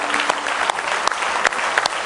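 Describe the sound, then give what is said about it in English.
A church audience claps in praise during a morning service, a dense, steady wash of applause with a few sharper, louder claps standing out. “Let's give Him a good hand clap of praise this morning.”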